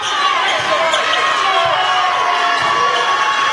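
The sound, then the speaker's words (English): Fans cheering at a college basketball game in an arena, a steady, loud, unbroken roar of crowd voices with a ball bouncing on the court underneath. “Volunteer fans making some noise.”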